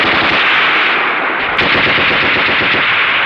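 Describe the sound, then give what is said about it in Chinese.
Machine gun fire rattles in a dense, unbroken stream of rapid shots, loud and continuous throughout with no voices over it. “停！停了射击！”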